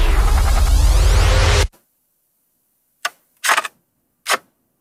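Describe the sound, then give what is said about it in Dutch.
Mechanical clicks of a View-Master viewer advancing to the next photo. A burst of loud noise cuts off abruptly, then four sharp, crisp clicks follow alone: a single click, a quick pair, then one more. “Doorklikken van een foto in een Viewmaster, zeg jij.”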